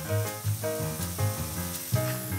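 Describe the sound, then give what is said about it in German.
Mushrooms sear in olive oil in a pan as a television cook fries them hard. The result is a continuous, bright sizzle that stays loud throughout, with no talking. “Jetzt schneidet unser Fernsehkoch Frühlingszwiebeln in feine Ringe, brät die Pilze scharf in Olivenöl an,”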